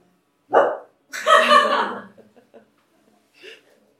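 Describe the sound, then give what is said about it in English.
Human voices imitating dog barks: a few loud, short bark-like yelps, one longer and drawn out, then faint scattered sounds and a softer bark near the end, with light chuckling mixed in. “Other than affirmative yeses, anyone's welcome to bark.”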